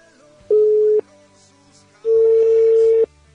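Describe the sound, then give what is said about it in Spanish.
Tones on a telephone line as a call is placed: two steady, loud beeps at the same pitch, the first short and the second about twice as long, with faint noise between. “Como sabrán, estamos llamando nuevamente a Valera. Esto vía toda línea telefónica.”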